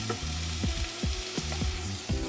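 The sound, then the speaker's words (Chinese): Sliced onions stir-frying in a pan with a little salt and pepper, a constant sizzle with recurring scraping and tossing as they are turned. “好，那我们就这样一直做拌炒，然后你可以不用一直翻动，因为这个洋葱呢就是要，就是你知道，就是要炒很久”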